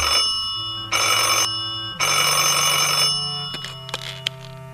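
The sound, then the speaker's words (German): A telephone bell rings in two loud, sustained bursts separated by a short pause, followed by a few faint clicks. “Er stieg aus dem Bett, ging nackt zum Telefon und nahm den Hörer nach dem zweiten Läuten ab.”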